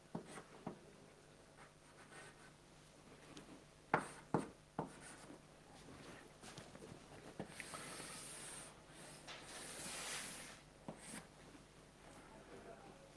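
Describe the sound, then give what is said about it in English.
Handwriting as lambda-calculus terms are written out: faint, irregular scratching strokes with a few sharper taps and scrapes clustered near the middle, all very quiet. “I write it like this.”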